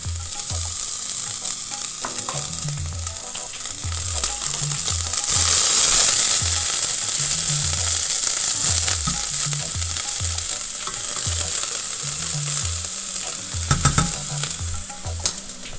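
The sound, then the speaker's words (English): Bacon renders in oil over medium heat in a small or medium saucepan, giving a steady, even sizzle and crackle throughout, with a few brief clinks near the end. “in a small or medium saucepan, heat the oil over medium heat and render the bacon until crispy”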